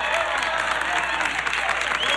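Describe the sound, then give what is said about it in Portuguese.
Audience applause for a band, a dense and steady roar of many hands clapping at an even loudness throughout, with a faint crowd murmur mixed in. “Aqui, aplausos pra galera, vamos trazer eles.”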